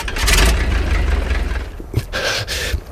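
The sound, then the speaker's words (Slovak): A car engine revs as the throttle is pressed during an attempt to get it running, giving a rough, loud low rumble with noisy surges that dip and swell again. “Už idem, kamarát, idem tlačiť ten plyn. Stlač plyn, teraz!”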